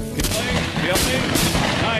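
Gunfire rings out at a white gobbler turkey on a hunt, with sharp, loud blasts rising out of a dense, noisy wash of sound that stays loud throughout.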